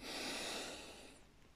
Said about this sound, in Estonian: hingame kolm korda hästi sügavalt sisse.